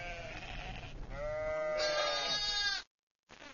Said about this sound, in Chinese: 母羊细心地舔舐着自己的孩子，经过这番舔舐，小羊羔就会记住母亲的体味